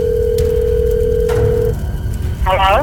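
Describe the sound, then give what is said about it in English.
A telephone dial tone before a call is placed, a steady hum-like tone held for over a second before it cuts off, with a brief voice at the end. “Hold on. I have to make one last phone call.”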